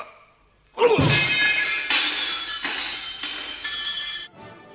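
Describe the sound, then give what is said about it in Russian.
A small mirror shatters in a sharp crash, followed by a bright, hissing spill of breaking glass that lasts about three seconds before cutting off. “Зеркальце разбили.”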